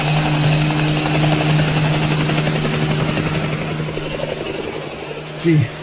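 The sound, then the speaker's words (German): A helicopter drones steadily as it lifts away during a police chase, its low engine hum holding fairly even and easing slightly in level, with a short louder burst near the end. “Sie haben den Hubschrauber erreicht! Und sie fliegen weg.”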